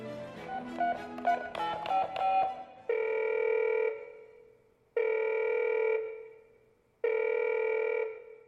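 Telephone ringing in three long electronic bursts, evenly spaced with short silences between, after a brief stretch of music at the start.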